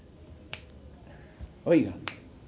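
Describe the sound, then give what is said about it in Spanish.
A preacher snapping his fingers during a sermon, two crisp, dry clicks spaced well apart with a brief vocal sound between them, over a quiet background. “Primero es un chasquido de...”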